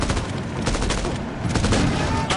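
Rapid video game gunfire sounds as a burst of many sharp shots over continuous noise, loud and crowded from start to end.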